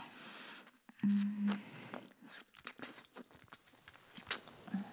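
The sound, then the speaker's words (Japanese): Wet licking and mouth sounds, soft smacks and clicks at an irregular rhythm with a few louder bursts, close and fairly faint, with no talk. “私の舐め方結構うまいと思うんだよね”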